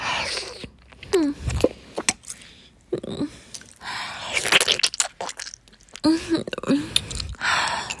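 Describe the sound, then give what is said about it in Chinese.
Someone eating an ice pop, with irregular bursts of wet biting, slurping and crunching, broken by a few brief voiced moans and breaths between bites. “对呀，还没吃完呢。我都吃半天了。”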